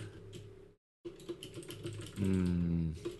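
Rapid clicking of typing on a computer keyboard: many quick, faint keystrokes in an irregular stream, broken by a short silent gap before the tapping resumes.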